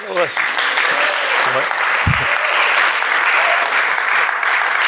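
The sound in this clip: Audience applause welcoming a speaker at a Bible talk, a steady, loud, dense clapping that holds for the whole stretch, with a voice briefly audible over it near the start.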